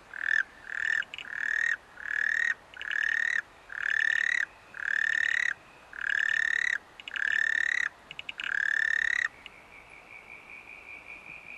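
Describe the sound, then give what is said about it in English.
Male frogs call in many loud, rhythmic bursts of rasping, pulsed croaks separated by short gaps, followed by a fainter, steady high trill, with no talk. “These guys they're calling now are cousins of these fellas. They're in the same frog group.”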